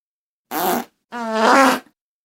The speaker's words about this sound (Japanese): おなら出ちゃうんだから。あー、出る出る出る出る出る。